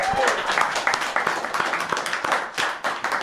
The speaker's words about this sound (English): That is a nice round of applause.